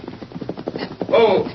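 Horse hooves clip-clopping as a horse waits to be shod, a steady run of hollow knocks, fairly loud and evenly paced, with a brief tonal sound near the end.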